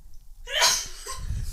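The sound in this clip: A single sharp sneeze in a studio during a live evening talk show. One loud breathy burst rises and fades within half a second, followed by a low rumble.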